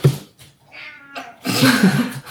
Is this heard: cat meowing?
yes